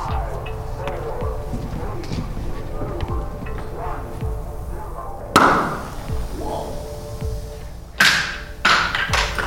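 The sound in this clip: Sudden whooshing bursts as a homemade miniature rocket launches in a kitchen during a science demonstration. A few sharp, bright rushes break out over a steady low rumble and faint background noise.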